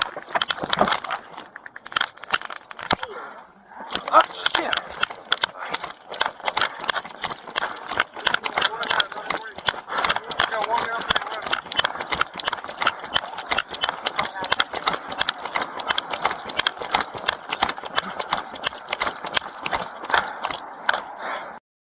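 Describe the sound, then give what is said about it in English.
Running footsteps of a heavy man: rapid, rhythmic thudding steps that continue almost without a break, with a short quieter gap early on, mixed with rattling and jangling. “Now, mind you hear this man running. He's got weight on him.”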